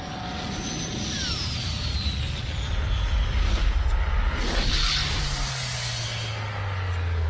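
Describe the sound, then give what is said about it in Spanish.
An aircraft descends from above with a steady, loud engine roar over deep rumble, and a whining tone glides downward through it. “De las alturas cae una aeronave de la que emerge Reed Richards”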